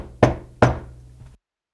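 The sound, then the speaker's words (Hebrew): Two firm knocks on a wooden door, the king knocking at the queen's chamber. Each crisp knock stands alone with a short decay, with no voices. “הוא החזיר את הקערה לקופסת העץ, סגר את המכסה, ויצא עם הקופסה מחדרו אל המסדרון ומשם אל חדרה של המלכה. הקיש המלך על הדלת.”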